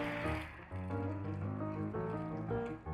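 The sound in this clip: Hot water pouring steadily into a cup of extra-thick instant noodles, a continuous gurgling, splashing stream that runs unbroken from start to finish.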